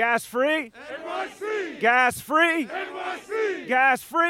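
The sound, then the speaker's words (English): Environmental activists chant a two-part slogan in unison three times at the signing of a local law in New York City. The loud, rhythmic shouted phrases are separated by brief pauses. “That's the sound of environmental activists cheering on former New York City Mayor Bill de Blasio, signing a local law in 2021.”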